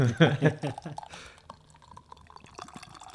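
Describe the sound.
A can of raspberry sour ale is opened and poured: after people talk, a short burst of fizzing hiss rises, then fades into quiet, faint liquid trickling.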